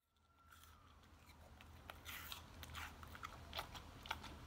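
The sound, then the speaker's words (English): Faint crunching and chewing of a dog eating an apple. Many sharp, irregular crunches grow denser and a little louder in the second half, with no voices. “You hear that? Somebody eating a carrot. That's a carrot. Oh, is that a bunny eating a carrot? That's my dog eating an apple.”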